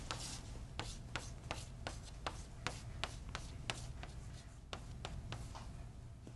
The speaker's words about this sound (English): So what I'm going to write